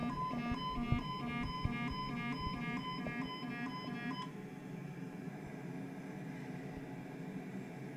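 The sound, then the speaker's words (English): A landing-gear warning alarm sounds in a flight simulator game on final approach with flaps set to 25. Rapid repeating electronic beeps play over a steady aircraft engine drone, then cut off after about four seconds while the drone continues. “Now warning me that my gear is not down, and I'm not ready to bring my gear down.”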